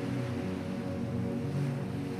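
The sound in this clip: Sea waves wash against a sandy coastal point near the Brittany border in a continuous, even rush of surf. The noise is fairly faint and has no distinct breaks or voices.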